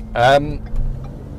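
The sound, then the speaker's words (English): Low, steady rumble of a car driving through countryside, with a short burst of voice near the start over the continuous road drone. “I'm currently driving through some spectacular, beautiful-looking countryside, which is where I'm lucky enough to live now”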